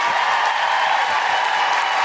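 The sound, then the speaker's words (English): An audience gives a round of applause at a live suffragette centenary special event, a dense, even wash of many hands clapping at steady loudness throughout. “So please give a huge round of applause to Jess Foster-Kew,”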